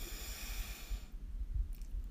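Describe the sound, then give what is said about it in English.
A loud, airy breath during a guided meditation: a broad rushing exhale for about a second, then it fades to quiet, soft breath noise. “So let's breathe in and out.”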